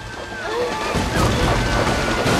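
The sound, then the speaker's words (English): Floodwater sloshing and surging from a failing dam, a continuous rough wash of churning water that swells louder after the first second. “Natalie is now immersed in water up to her neck, and the dog is floundering to stay afloat, yet still the waves buffet them.”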